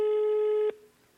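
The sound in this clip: A single steady electronic telephone tone sounds on an outgoing call and holds evenly for under a second. It cuts off abruptly, leaving faint background hiss.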